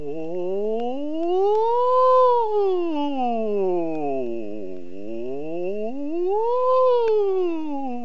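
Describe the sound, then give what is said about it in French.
A voice imitates a siren as a vocal warm-up before high soprano singing, a smooth, loud hum that glides up to a high peak, sweeps down low, then climbs high again and starts descending. “Avant de chanter aussi aigu, il faut faire des sirènes pour remonter sa voix, du style”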